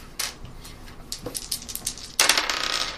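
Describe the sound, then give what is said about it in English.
Dice rolling on a table during a tabletop roleplaying game session: scattered light clicks and taps, then a sudden burst of dense rattling that continues until the end. “I rolled these dice.”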